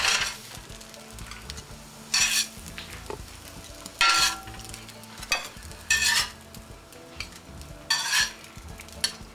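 Eggplant slices sizzle in frying oil with a continuous crackle, broken by a few sharp scraping and clattering bursts from a utensil at roughly regular intervals.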